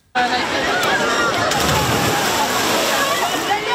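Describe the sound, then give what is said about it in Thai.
Loud, steady splashing and sloshing of water as people jump from a bridge into a city canal on a hot day, with voices mixed into the rushing noise throughout. “ฝรั่งเศสหลายคนกระโดดสะพานลงไปเล่นน้ำในคลองแซงมาแตงในกรุงปารีสอย่างสนุกสนานค่ะ”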